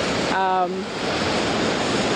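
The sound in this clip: Steady rushing water pouring over a small rock cascade on the Niagara River, between Goat Island and the Three Sister Islands upstream of the Horseshoe Falls. The continuous loud hiss is briefly overlaid by a voice near the start.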